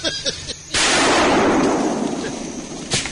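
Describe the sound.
A gunshot fired while hunting squirrels in the woods cracks loudly as one sharp blast with a long, decaying tail, after a brief faint rustle and before a small knock at the end.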